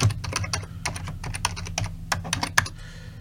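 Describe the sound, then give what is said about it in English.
Rapid typing on a computer keyboard: many quick, crisp keystroke clicks in an uneven rhythm with no talk, ending in a short quiet pause. “I can't type. It's hard to type around a microphone.”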